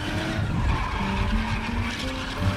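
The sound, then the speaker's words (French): Wheels of a Ford V8 car spinning in mud, a continuous rough, churning roar with gritty noise and engine drone, steady in loudness throughout. “Il tente de dégager la V8, mais les roues patinent”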